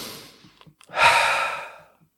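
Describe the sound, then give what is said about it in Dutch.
Breathing during a breathing exercise, a few soft short breath sounds followed by one long, airy breath that swells and then fades out into silence. “Je gaat inademen. En wat doe je meestal? Automatisch terug uitademen.”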